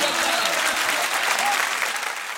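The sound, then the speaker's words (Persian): A crowd claps along in steady rhythm during a devotional chant, the dense clapping holding a constant level throughout. “جانم جانم دست بزن.”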